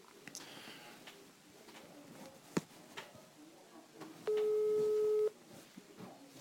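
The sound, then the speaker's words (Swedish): A telephone ring tone sounds during a call as a single steady, even tone lasting about a second, over faint background noise. “Ska vi ta och ringa Patrik Kilvan och lyssna in vad han tycker?”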